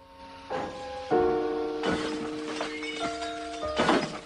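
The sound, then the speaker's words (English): Glass smashing as a gang breaks out the windows of a Mustang, with several heavy crashing impacts at irregular intervals, each followed by ringing, tinkling tones that linger between the blows. “Weber's gang smash out the car's windows.”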